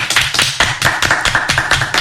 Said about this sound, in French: Et ça s'applaudit.